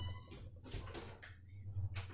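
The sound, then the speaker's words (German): A children's room door being shut, heard as faint scraping and a few soft knocks and bumps. “ich musste nur mal kurz die, meine Kinderzimmertür zumachen.”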